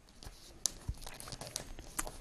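A sheet of origami paper is folded, making faint crinkles and soft crisp ticks as it is creased. There are a few light rustles spread across the moment, with no talk over them.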